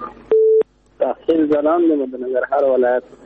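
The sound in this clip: A telephone line tone after a call is cut off: one short, loud, steady beep at a single pitch, followed after a brief gap by a voice talking.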